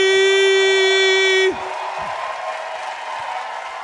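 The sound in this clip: A live audience cheers and applauds for the balcony section. A long, loud held vocal note cuts off into a steady wash of crowd noise.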